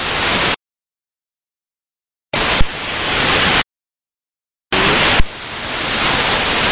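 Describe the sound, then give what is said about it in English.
Loud hissing radio static from an aviation radio channel, an unreadable incoming call. It comes in three separate bursts with dead silence between them and sharp clicks as the later bursts open. “Yeah, I hear somebody trying to call, but unreadable, very quiet, a little bit of background static.”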